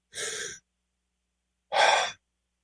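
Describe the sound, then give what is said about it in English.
Two breathy human exhalations, each about half a second long and separated by a pause of over a second, the second one slightly louder, with silence around them. “Just exhale and you can watch it work.”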